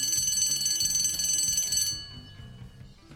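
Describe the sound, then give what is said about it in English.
An old-time school bell ringing, a rapid, bright metallic clanging that rings loudly and continuously for about two seconds, then stops and leaves a fading ring. “It was a school bell, an old-time school bell”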